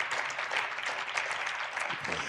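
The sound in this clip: Audience applause welcoming a guest at a faith talk on prayer and fasting, a steady, dense clatter of many hands clapping throughout without a break.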